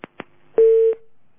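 Two sharp clicks on a telephone line, then a short, steady tone as the call is cut off. The tone lingers faintly before fading.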